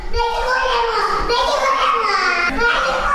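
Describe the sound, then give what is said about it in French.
A malnourished child crying loudly while a doctor inserts a nasogastric feeding tube, continuous high-pitched wailing with a wavering, strained pitch that runs throughout without a break. “Cet enfant pleure parce que le médecin est en train de lui poser une sonde nasogastrique pour son alimentation.”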